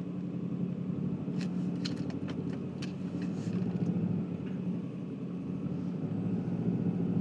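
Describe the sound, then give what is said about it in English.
A car engine runs steadily while the car is held on a hill with the clutch, a low, even rumble with a few faint clicks. “I'm holding the car on a hill with the clutch”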